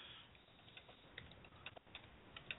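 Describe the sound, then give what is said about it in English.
Someone types on a computer keyboard, producing many quiet, irregular key clicks in a fairly steady stream, with no talking. “Hold on, I'm typing to Steve.”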